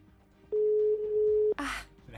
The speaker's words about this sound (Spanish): A ver si suena. Ay. Suena. Está llamando.